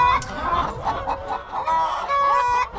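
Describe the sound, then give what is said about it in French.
Hens clucking in a henhouse bedded with straw: many overlapping clucks and drawn-out squawking calls, loud and continuous. “La poule est quand même un animal assez peureux, qui est très curieux, mais qui malgré tout est très peureux, puis surtout qui est cardiaque.”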